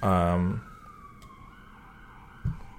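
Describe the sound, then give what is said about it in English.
Faint siren wail from emergency vehicles outside in the city of Nashville, drifting downward in pitch in the background after a brief louder sound at the start. “We got some sirens in the background. Sorry for we live in a city. Sorry for any background noise.”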